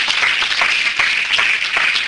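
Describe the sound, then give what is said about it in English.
A church audience gives God a hand clap of praise. The clapping is loud and dense throughout, with a faint sustained tone running beneath it. “Go ahead and give God a hand clap of praise up in here, up in here.”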